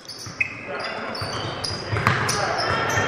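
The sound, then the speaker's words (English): A basketball is dribbled on the court during a high school game, a few dull bounces sounding beneath continuous play-by-play commentary and the murmur of the gym. “Marshfield on the dribble, driving it down the lane around Murphy.”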